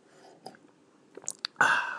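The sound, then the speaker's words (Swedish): A sip of cold instant coffee from a mug, heard as a few faint, quiet mouth clicks followed by a louder, sustained slurping rush near the end. “Framför mig en kopp kallt kaffe. Jag ska nu ta en klunk.”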